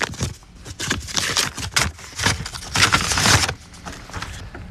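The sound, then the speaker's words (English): Paper tearing and rustling as an envelope is opened: a run of crisp, scratchy bursts of varying loudness that continues steadily through the moment. “I am opening the envelope.”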